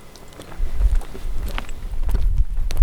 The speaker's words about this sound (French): Là, maintenant, on marche avec à peu près 4 km par l'heure. Ça arrive qu'on fasse moins de 2 km/h. Pour l'instant, on marche sur des roches calcaires.